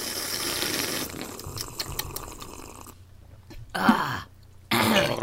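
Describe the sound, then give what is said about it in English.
Throat gurgling from people drinking butterscotch and butternut squash coffee: a low, rough bubbling rumble that ends in a couple of louder, harsher bursts. “Did you gurgle? I gurgled.”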